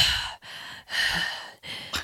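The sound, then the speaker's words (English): A voice imitates heavy mouth breathing with four loud, rasping breaths in a steady rhythm, each separated by a brief pause. “Like Tony Soprano style mouth breathing.”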